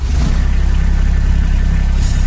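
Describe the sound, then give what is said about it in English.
The engine of a Kubota RTV utility vehicle runs at a steady, loud idle, with a low, rhythmic chugging throb that holds throughout. “That's the sound of a Kubota RTV utility vehicle.”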